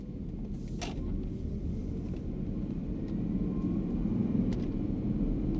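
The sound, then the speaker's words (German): Steady low engine rumble of a motorcycle riding off, a continuous even drone that grows slightly louder in the last couple of seconds, with no voices. “Also wir steigen jetzt auf meine Maschine und fahren nach Aachen.”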